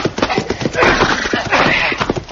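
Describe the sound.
Horse hooves clip-clop in a quick, steady run of sharp knocks throughout, with a louder scuffling rush near the middle.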